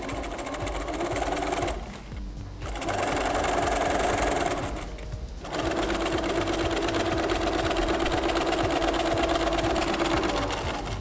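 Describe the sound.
A sewing machine stitches a narrow fabric strip meant to be tied at the neck. Its steady, buzzing mechanical whir runs in three stretches, broken by two brief pauses.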